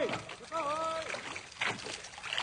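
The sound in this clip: Water sloshes and splashes around a rowing boat being pulled toward a ship adrift in mid-Atlantic, with men's voices calling over the steady wash of the strokes.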